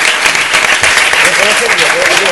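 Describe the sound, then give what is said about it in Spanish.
Applause from an audience at a live show, cheering a group of girls: a brief, dense, loud burst of clapping with voices sounding over it. “Un aplauso para las niñas de Wii, que se han portado divinas.”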